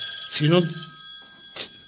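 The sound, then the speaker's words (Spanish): A telephone rings with a steady, high electronic tone that holds throughout, while a person speaks briefly over it. “Espera que... O teléfono.”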